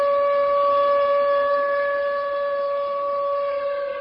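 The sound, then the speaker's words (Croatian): Sirens sounding in Beijing to mark the start of mourning for the Sichuan earthquake, a steady, sustained tone with strong harmonics, level in pitch, holding unbroken for the whole stretch. “Početak žalosti tačno u 2 sata i 28 minuta posle podne, kada se po lokalnom vremenu zemlja prvi put zatresla, u Pekingu i drugim gradovima Kine označio je zvuk sirena.”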